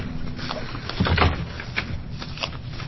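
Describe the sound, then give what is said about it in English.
Papers and bill files being handled and swapped during a committee hearing: a few soft rustling and thumping bursts of moderate loudness, with no talk over them. “Putting away my other bill file and locating the appropriate one.”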